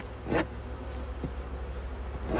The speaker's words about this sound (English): I've got some bees that have taken the dive into the syrup top feeder that I'm getting out right now.